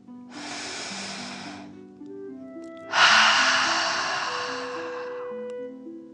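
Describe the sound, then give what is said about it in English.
Two deep breaths, an airy inhale followed by a longer, louder exhale, each a broad rushing breath over soft, sustained musical tones. “Let's take three more deep dragon breaths as you continue to float. Deep breath in and out.”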